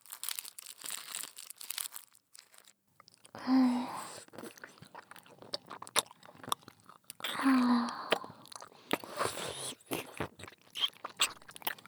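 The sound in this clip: Someone eats a lollipop on a stick, making many wet clicking and crunching mouth noises throughout, with two short hummed voice sounds breaking in between them.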